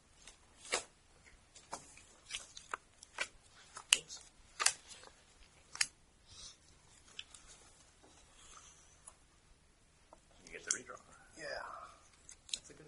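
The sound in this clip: Playing cards are gathered up for the next round of a tabletop card game, making many faint, scattered clicks, slaps and shuffling rustles spread irregularly across the stretch.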